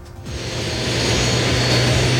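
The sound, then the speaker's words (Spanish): A Republic of Panama private jet lands on an airport terminal apron: a dense, steady jet-engine roar that swells gradually over about two seconds, with a low droning hum underneath. “la imagen en directo a través de Bio Bio TV da cuenta de este jet privado de la República de Panamá, porque hace instantes acaba de aterrizar acá en la losa de la”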